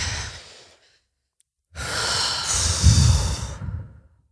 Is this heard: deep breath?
yes

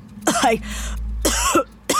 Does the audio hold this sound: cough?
yes

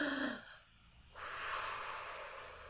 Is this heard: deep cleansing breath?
yes

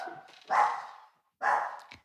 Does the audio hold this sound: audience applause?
no

